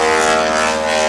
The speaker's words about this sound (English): one of the Aeroshell team T-6s is taken off. That was that big noise you just heard.